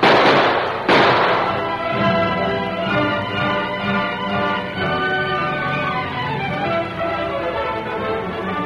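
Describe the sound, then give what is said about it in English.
Two sharp gunshots fired as warning shots in a Western radio drama burst out close together at the start, followed by a lingering, sustained ringing tone. “A moment later, Tonto saw the figure of a man creep over the edge of the arroyo, and he fired a few warning shots in the man's direction.”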